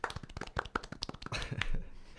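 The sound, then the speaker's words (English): Hand claps for a shy guest on a chat show: a small, quick scatter of crisp, irregular claps, faint and brief, that sounds like only a few people clapping. “Can we get a round of applause?”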